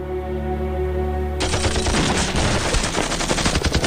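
Frantic gunfire as a rear blocking squad fires on two front-line commanders: a low steady drone gives way suddenly to a dense, rapid rattle of shots that continues loudly to the end.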